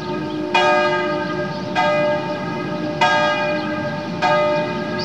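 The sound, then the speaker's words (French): A church bell in an old cathedral's bell tower strikes the hour at noon. Four evenly spaced, loud strokes sound, each with a bright metallic clang that rings on into a long, shimmering decay. “Les onze coups de midi viennent de sonner au clocher de la Sagrada Constipacion.”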